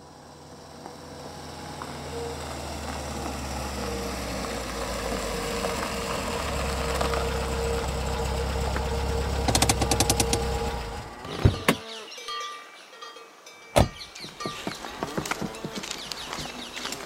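A taxi engine idles in a steady low rumble for about eleven seconds, then cuts off, followed by a few sharp knocks and clicks.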